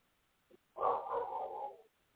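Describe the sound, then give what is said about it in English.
A dog barking: a faint, short yip followed by one loud, drawn-out bark that wavers slightly before cutting off. “my dog's calling”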